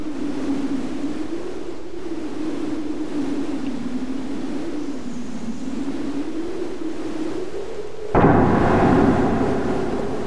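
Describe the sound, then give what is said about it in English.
A thunderstorm sound effect starts with a howling wind that wavers steadily for several seconds. A sudden loud crash of rumbling thunder then cuts in near the end. “decided to play with the thunderstorm, beginning with the wind.”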